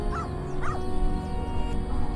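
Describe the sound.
A dog gives a couple of brief high whining yelps over a steady low background hum, with no talk.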